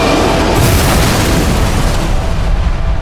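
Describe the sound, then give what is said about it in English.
Silurian missile impact explosion, a loud, dense booming roar that fills the whole stretch with sustained rumble and only eases slightly near the end. “Someone's launched a missile at us. That's a Silurian weapon. Brace for impact.”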